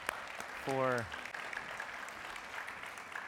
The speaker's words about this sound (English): Let's give everyone another round of applause